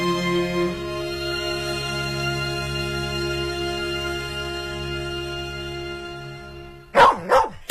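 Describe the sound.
A few quick, sharp dog barks burst out at the very end, right after a long steady musical drone.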